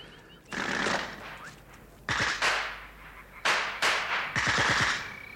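Automatic gunfire in a Second World War radio drama: four loud bursts of rapid shots separated by short pauses, with no voices.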